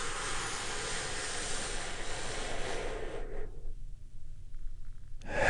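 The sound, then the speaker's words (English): A big, deep breath taken during a guided relaxation exercise: a long, loud, airy rush of breath that holds steady for several seconds, thins to a low murmur, then swells again briefly at the end, with no talking. “take one more big, deep, healing breath with me right now. Here we go.”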